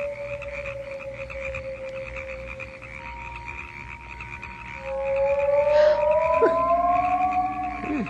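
Frogs croak at night on an island, giving long, low, droning calls that overlap one another, quiet at first and then swelling louder in the second half.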